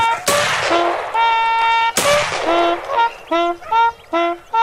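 Two sharp, loud gunshots during a hunt crack out over loud honking calls that keep going in repeated bursts after the shots.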